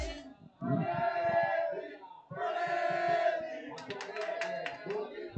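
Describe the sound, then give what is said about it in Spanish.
Atlético de Madrid supporters of the Peña Atlética de Torrejón de Ardoz chant during a match, two long sung phrases from a group of voices, then rhythmic hand claps under the chant. “Ojo a la afición, escuchen la afición que habla aquí la Peña Atlética.”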